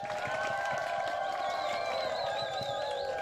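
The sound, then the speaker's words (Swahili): A church audience breaks into applause and ululation: dense, steady clapping and crowd noise throughout, with high, wavering trilled voices rising above it. “Makofi na vigegere kwa Yesu.”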